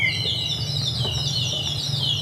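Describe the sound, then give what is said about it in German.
Nightingale stop of a baroque organ, a water-filled bird whistle, giving continuous high warbling and trilling chirps that waver up and down over a steady low drone. “Sie haben einen Vogel eingebaut. Ja, das ist eine Nachtigall, die habe ich vorher noch getränkt. Also? Mit Wasser.”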